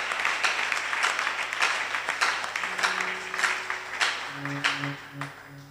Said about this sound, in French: Vous pouvez acclamer très fort pour le Seigneur.